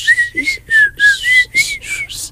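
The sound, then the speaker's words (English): Whistling of a bouncy marching tune: a run of about seven short, clear, high notes, evenly spaced and choppy, each with a breathy edge, whistled alone at moderate loudness. “And then do the whistle part.”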